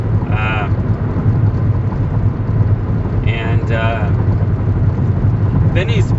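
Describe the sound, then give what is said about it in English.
Steady low road and engine rumble inside a car while driving home, continuous throughout with a person talking over it. “I'm driving home right now. It's 6:80. I'm sorry if there's a lot of noise here. I'm sure there is.”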